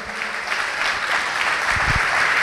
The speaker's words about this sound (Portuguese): Vamos aplaudir o Senhor.